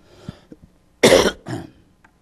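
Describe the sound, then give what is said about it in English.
A hoarse person with a persistent cough coughs twice, first a loud harsh burst, then a shorter, softer one, after a few faint throat and breath sounds. “I'm hoarse. I've had a persistent cough since the first of the year.”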